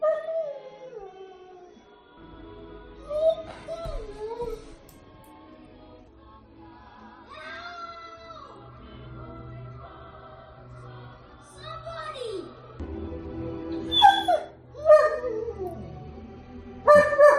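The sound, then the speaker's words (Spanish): A German shepherd whimpers and whines while watching a film on TV. Several high, wavering cries rise and fall in pitch, with louder bursts near the end, over a low, steady background sound. “es conmovedor escucharle a este Falco, a este perro, y ver cómo se entristece.”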